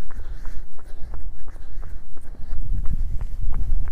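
Running footsteps on a road: many quick, evenly spaced thudding steps in a steady rhythm over a low rumble.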